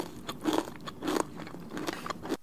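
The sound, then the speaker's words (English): Crunchy chewing of pad thai loaded with bean sprouts, close and moist, with several crisp crunching bursts spaced out in an uneven rhythm between softer squelching chews. “There's a lot of bean sprouts in that pad thai. You can just hear.”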